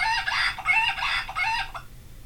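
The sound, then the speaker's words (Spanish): A rooster crows once, a long, loud, harmonic call broken into a few rising and falling strained phrases that ends in a short clipped note, followed by quiet. “A ver, el gallo.”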